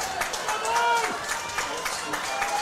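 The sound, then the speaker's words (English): Coldwater Cardinal football fans cheer from the stands at a high school football game against Sturgis, urging a fourth-down stop. A steady, dense crowd roar runs under a man's voice talking. “Cardinal fans making noise underneath us. They want the stop so bad.”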